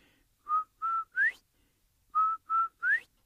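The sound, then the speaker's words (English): Human whistling imitates a quail's call in a Cherokee animal story: two groups of three clear whistles separated by a short pause, with two level notes followed by an upward-sliding note in each group. “So Quail takes a couple steps back, and he makes that beautiful sound again.”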